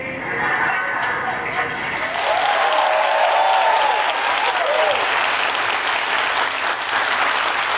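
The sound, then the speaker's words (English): A crowd cheers and applauds, with thick, loud clapping that swells and stays strong throughout, and whooping voices rising and falling through the middle of the burst. “Can't believe you cheered for that pilot.”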